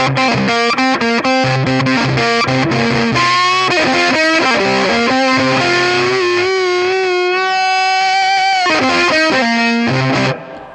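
An electric guitar plays through a compact Tone Bender-style British fuzz pedal, producing a loud, thick, distorted riff of quick notes. The riff gives way to long sustained tones, then picks up again before cutting off at the end.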